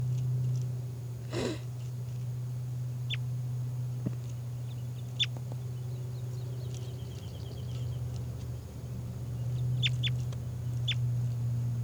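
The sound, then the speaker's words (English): Faint, short, high chirps from a type-2 test bird, a few scattered calls heard over a steady low hum with no voices. “These are test recordings of bird 405.”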